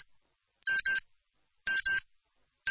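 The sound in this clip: Radio time-signal beeps at 11 in the morning in Nepal: short, clean, high-pitched pips in pairs, one pair each second, with two pairs heard before another beep begins at the very end. Silence separates the pairs.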